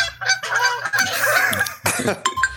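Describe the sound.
A human voice imitates the honk of a Chinese goose for an unhinged, muscular goose character in a tabletop game: loud, harsh, nasal honks in a quick run, then a short break and a few more strained blasts.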